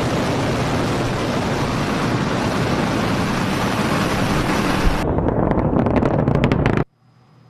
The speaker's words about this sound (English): You may recall back in January, SpaceX launched a rocket without a hitch. Ignition and liftoff.